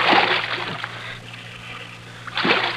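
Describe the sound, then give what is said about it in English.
Canoe paddle strokes splash through water, one burst of splashing at the start and another near the end, with quieter sloshing and a low steady hum between them. “All right, now lean on that paddle.”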